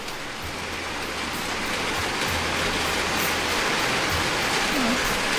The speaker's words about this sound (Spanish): Ese es el ruido de la lluvia, chicos.